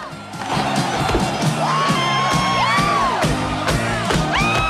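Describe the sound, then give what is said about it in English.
A crowd in a bar cheers, whoops and shouts over a steady thumping music beat, with repeated rising and falling whistles and yells throughout. “Rachel sways the baying crowd.”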